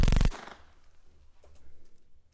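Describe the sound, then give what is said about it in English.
Gunfire aimed at a shooting target opens with a loud, sharp burst lasting a fraction of a second, then drops away to a low, quiet rumble. “Now, shoot that target dead center. Make sure you trace the hole 3 times. Only one hole better appear in that target.”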